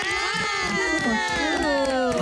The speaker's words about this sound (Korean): 박수 주세요.